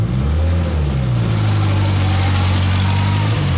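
A car engine rumbles as the vehicle pulls away from outside a church at night in 1970s Catalonia, a loud, steady low-mid drone with a slight early rise in pitch, alone without voices.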